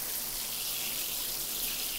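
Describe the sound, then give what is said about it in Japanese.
Warm water runs and soaks into hair during a hair wash, a steady, soft hiss of flowing water with no talk over it. “たっぷりと髪の毛にお湯を染み込ませて。熱くないかしら。”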